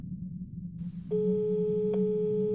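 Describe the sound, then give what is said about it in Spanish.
A steady telephone tone sounds after a number is dialed. It starts partway in and holds unbroken to the end over a low background hum. “Marqué a su número y pronto escuché el tono demarcado.”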